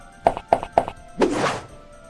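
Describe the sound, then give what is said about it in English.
A shield being raised in a video game: three quick, evenly spaced thunks followed by a longer, breathy whoosh, crisp game effects heard alone without talk. “Raised my shield. Let it go.”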